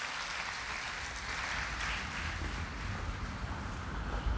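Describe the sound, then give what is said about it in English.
Wind buffets an outdoor microphone in a steady, low rumbling roar with broad hiss above it. It keeps up without a break and swells slightly toward the end. “All right, I've tried to get away from the wind.”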